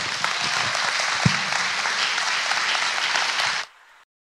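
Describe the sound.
Warm applause from a church audience welcoming a pastor to speak on Mission Sunday: loud, dense clapping that holds steady for a few seconds, then fades quickly to silence.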